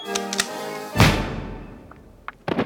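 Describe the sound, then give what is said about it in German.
A single gunshot fired on a dark promenade in an audio drama, a sudden loud crack with a decaying tail lasting about a second, with snatches of voice just before and after. “Auf der ziemlich dunklen Promenade ertönte plötzlich im Rücken der beiden Frauen ein Schuss.”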